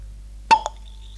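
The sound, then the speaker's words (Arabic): A glass bottle stopper pops open with one short, sharp pop, followed a moment later by a smaller click, against near silence. “صوت سدادة زجاجة تفتح”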